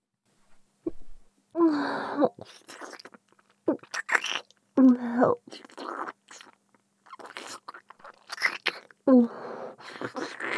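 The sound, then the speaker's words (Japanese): Chewing and biting noises as someone tastes food, with quiet wet mouth clicks broken by a few short voiced hums of enjoyment. “私、お腹すきましたわ。味見させていただきます。”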